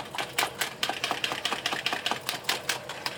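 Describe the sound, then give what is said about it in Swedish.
Whisking a mixture with about half a tube of cod roe spread, a quick, steady run of many light rhythmic taps and scrapes against the bowl. “Så tar man ungefär 1/2 tub med kaviar. Och där känner du också när du kommit till halva. Ja, jag visste ungefär hur mycket jag hade kvar. Ja, eller 6 matskedar. Så vispar vi ihop detta.”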